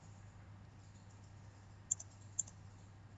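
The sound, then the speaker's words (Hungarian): A computer mouse is double-clicked, giving faint, sharp clicks over a low, steady hum. “Erre a sorra, hogyha duplát kattintunk,”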